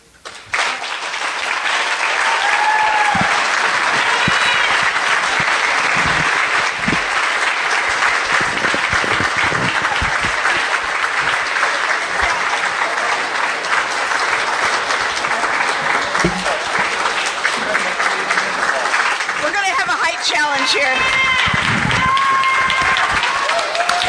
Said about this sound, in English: Standing ovation, folks, for a magnificent banquet speech. Yeah. This audience is on its feet.